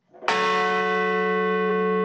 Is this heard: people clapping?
no